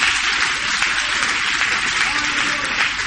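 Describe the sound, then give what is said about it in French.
An audience at a church service applauds, with dense, continuous clapping that fills the whole clip and voices mixed into it. “Est-ce qu'on peut acclamer Jésus sur la tête?”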